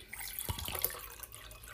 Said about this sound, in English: Just pouring myself some water